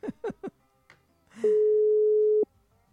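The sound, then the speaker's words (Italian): A telephone ringing tone after a call button is pressed: one steady, level tone lasting about a second, preceded by a few short spoken syllables and a soft click. “Lui si chiama Ares, io piggio il bottoncino per chiamarlo per vedere cosa c'ha da dire.”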